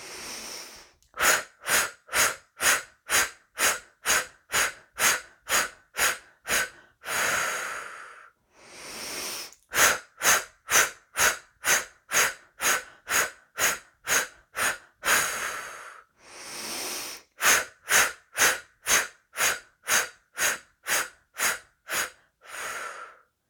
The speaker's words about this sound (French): Et nous recommençons un cycle. Nous inspirons.